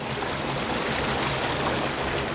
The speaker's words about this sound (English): A waterfall is tumbling out of the shattered brickwork of the main trunk sewer. The aorta of the entire sewage system has burst. Raw sewage is cascading down into the nullah 20 feet below.